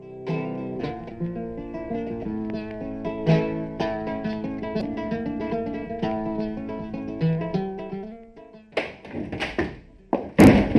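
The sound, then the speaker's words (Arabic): An angry woman slams a door shut, producing a few loud, heavy wooden thuds and knocks in quick succession. The thuds come right after a long stretch of melodic music. “لماذا تصفقين الباب بعصبية هكذا؟”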